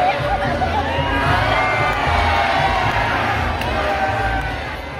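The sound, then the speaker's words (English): A concert crowd sings a cover together, with many voices blended into a loud, swelling roar of singing and cheers that holds steady before tapering off near the end. “surrounded by friends swaying and hugging her, the whole room turned away from the stage and singing up to her”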